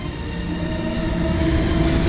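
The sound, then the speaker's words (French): Historic panoramic train running on rails, a steady loud rumbling drone with sustained squealing, humming tones from the wheels, growing slightly louder throughout. “mais Jérôme Constantin pour me retrouver, m'accueillir, vous faire un petit tour à bord d'un train historique.”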